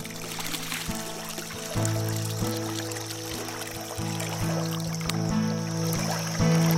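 Water played as a percussion instrument in the Santa Lucía Chico river: splashing and pouring sounds over sustained, ringing guitar notes, with soft rhythmic accents recurring every second or so.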